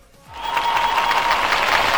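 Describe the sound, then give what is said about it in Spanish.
Applause sound effect: dense, steady clapping that swells in after a brief quiet start and holds at an even, loud level to the end. “ese es un aplauso a Warri”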